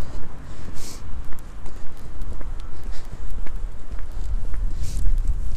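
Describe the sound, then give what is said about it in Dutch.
Footsteps of a person walking outdoors, a steady rhythm of many soft steps over a constant low rumble. “ik heb nu een heerlijke frisse neus gehaald. Ik heb even lekker gelopen. En terwijl ik hier nu loop”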